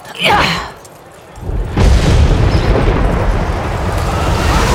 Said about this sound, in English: The concussion grenade exploded right in the front doorway, in the midst of the bodyguards.